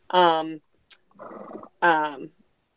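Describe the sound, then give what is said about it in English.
A household's pet horse gives two tonal, harmonic calls that hold a steady pitch, with a short breathy, noisy burst between them. “it's our horse. Sorry. Yeah, I was going to say, is that a horse or a dog?”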